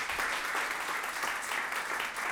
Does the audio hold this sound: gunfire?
no